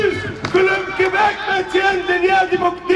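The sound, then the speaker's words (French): A protest crowd at a pro-Palestinian rally in Montreal shouts and chants with loud, sustained massed voices. The tone swells and dips in uneven pulses. “des Montréalais continuent de crier leur indignation”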